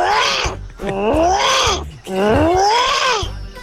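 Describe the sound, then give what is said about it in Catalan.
A human voice imitates an armadillo with a few loud, drawn-out, groaning roar-like calls, each arching up and then down in pitch. “Jo faré el soroll de l'armadillo.”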